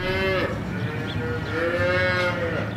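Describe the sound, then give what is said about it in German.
Calves mooing in a huge barn on a kibbutz in the Negev desert. A few drawn-out, tonal moos overlap one another over a steady background hum of barn noise. “In einem riesigen Stall werden gerade die Kälber versorgt.”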